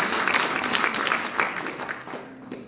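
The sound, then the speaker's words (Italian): Applause from an audience, a moderate patter of clapping that stays fairly even and thins slightly toward the end. “Un applauso anche a Marco Patano.”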